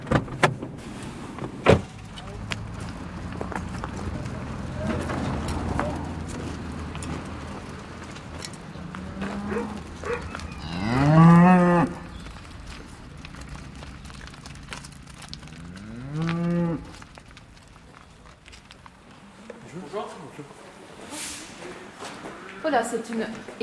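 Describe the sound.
Cattle mooing in a cowshed: a long, loud, drawn-out moo, then a shorter one a few seconds later, both rising out of a low rumble of background noise.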